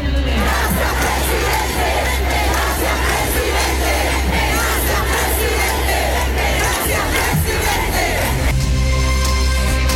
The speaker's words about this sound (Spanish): un discurso, como lo decíamos, que duró casi 20 minutos y que tuvo acompañado de múltiples cánticos a favor de Gabriel Boric por parte de sus adherentes. Escuchemos parte del ambiente de ese momento.